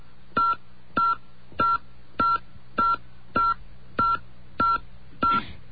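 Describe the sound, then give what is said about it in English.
Telephone keypad tones as a phone number is entered: a steady string of about nine evenly spaced, identical short beeps, the same key pressed over and over, each tone clean and bright apart from a slightly rougher final press. “We're going to enter a number where we can be reached. Listen to this.”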